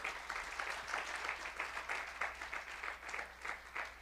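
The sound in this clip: Applause from a church audience at a morning service, a steady wash of many hands clapping together at an even, moderate level, continuing without a break for several seconds.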